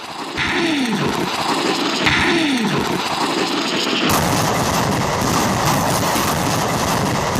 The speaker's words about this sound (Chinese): 接到紧急火力打击指令后，各炮迅速完成行军转换，火力作战单元对目标进行侦察判别，调整参数，对目标展开打击。